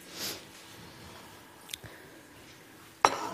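A cutting board set down under a pot in a home kitchen while making maki, with a faint tap first and then a sharp, brief knock.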